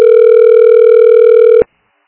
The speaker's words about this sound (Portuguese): Tô ligando lá pra ver.